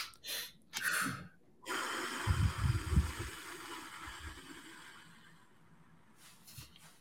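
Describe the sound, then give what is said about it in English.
Parachute breathing during a grounding exercise: short quick sniffs in through the nose, then a long, breathy exhale through the mouth that slowly fades. A few more faint sniffs follow near the end. “for parachute breathing, it's a quick inhalation through the nose. And now, an uh, extended exhalation through my mouth.”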